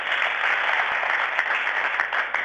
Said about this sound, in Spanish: Nuestra gratitud enorme. Lo aplaudimos de corazón.